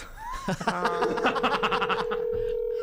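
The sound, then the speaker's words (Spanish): A telephone ringing tone sounds on an outgoing call as a steady low tone held for about two seconds, with laughter and voices over it. “A ver, ya está sonando. Vamos a ver si nos contesta”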